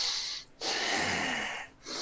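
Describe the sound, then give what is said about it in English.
Heavy, forceful breathing from Iroh during an Avatar firebending scene: a long rushing breath, a short pause, a second longer breath, then a brief gap before a third begins, loud and with no talk over it. “Iroh goes, only once in 100 years can a fire bending feel power like this. And just his breathing”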